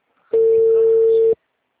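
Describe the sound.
A telephone call's ringing tone: one steady, mid-pitched beep lasting about a second, starting and stopping abruptly, heard alone with silence around it.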